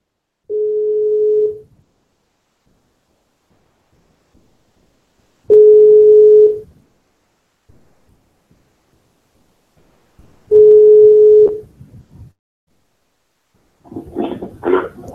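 Telephone line tone after dialing an office extension: three long, steady, mid-pitched beeps of about a second each, separated by several seconds of silence, followed by a short burst of other sound at the end.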